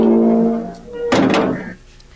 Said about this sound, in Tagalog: Sige na, isara na ang gate.